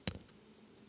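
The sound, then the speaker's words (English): A pet bird clicks its beak: one sharp, quiet click followed by a couple of fainter ticks, then near silence. “That's her beak. Yeah, that's the sound of the cutest beak in the world.”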